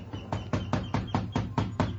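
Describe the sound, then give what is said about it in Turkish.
Persistent knocking on a door: a rapid, steady run of evenly spaced, fairly loud raps that continues without pause from start to end. “Bak bak, kapıyı nasıl da ısrarla çalıyorlar.”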